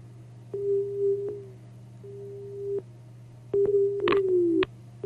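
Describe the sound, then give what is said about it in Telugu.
Telephone busy tone after a phone line cuts off, a steady-pitched beep repeating in even on-off pulses over a low constant hum, with a few sharp clicks. “Hello, phone line cut అయినట్టుంది.”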